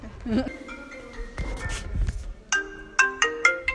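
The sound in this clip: A phone ringtone for an incoming call plays a bright electronic melody of short, repeated high tones in quick succession through the second half, after voices talking over a busy background at the start.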